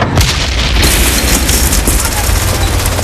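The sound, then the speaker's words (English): A sticky bomb explodes against a tank during a street battle in a war film. The deep, loud booming blast is followed by a heavy rumbling roar that carries on for several seconds. “lights the fuse of a sticky bomb. He holds the greasy black sock, glancing furtively between it and the street. As the tank rolls into view, he runs alongside, the bomb dangling from his tight grip. A blast tears him to shreds.”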